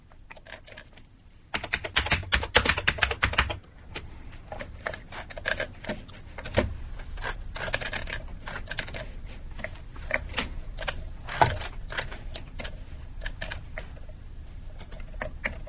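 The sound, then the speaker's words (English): Many rapid, sharp clicks from a noisy computer mouse in an office, arriving in uneven bursts with some louder snaps among the quieter ticks. No talking is heard. “It's a very noisy mouse you've got there.”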